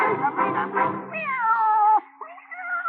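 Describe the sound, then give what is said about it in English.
A cat meows a few times. A long, wavering, drawn-out meow stands out, followed by a shorter, softer one. “Meow.”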